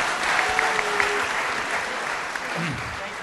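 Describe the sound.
An audience applauds a guest with steady, dense clapping that holds at an even level throughout, with voices mixed in.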